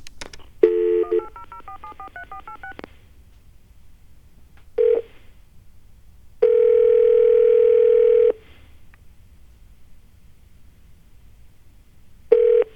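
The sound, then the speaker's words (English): Touch-tone telephone dialing of a 1-800 number that turns out to be unavailable: a quick run of many keypad beeps, then after pauses a short tone, a long steady tone of about two seconds, and another short tone at the end. “Still in the heavy metals, we've got iridium to call. So, 1-800-IRIDIUM. I-R-I-D-I-U-M.”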